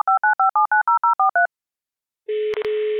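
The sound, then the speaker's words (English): Touch-tone telephone dialing plays as ten quick, evenly spaced two-tone beeps, followed after a short pause by a loud steady line tone broken by two brief gaps. “So I think without further ado, let's dial in and get Michelle on the line.”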